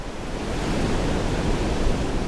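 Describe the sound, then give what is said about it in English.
Ocean waves pound the shore of Hatteras Island, North Carolina, as a hurricane approaches. The surf makes a loud, steady, hissing roar with no break and no voices. “Waves pounding the shore of Hatteras Island, North Carolina today as a fierce Hurricane Earl draws near.”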